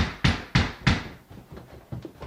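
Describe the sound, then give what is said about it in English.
Someone banging on a front door in the middle of the night and slamming the screen door: three heavy, loud thuds in quick succession, then several softer knocks and rattles. “Someone is banging on my front door trying to get in. They're slamming the screen door.”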